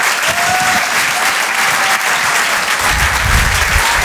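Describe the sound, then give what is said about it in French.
A comedy club audience at the Open du Rire applauds a comedy duo as they are introduced on stage. The clapping is loud, dense and continuous throughout. “Faites du bruit, s'il vous plaît, pour Gilles Alma et Ben.”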